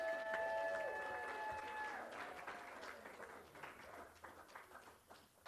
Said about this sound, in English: our scholarship finalists in the room. Give them a great round of applause.